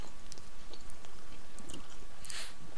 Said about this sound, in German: ich werde mal gerade mal hier in meinen schönen Apfel beißen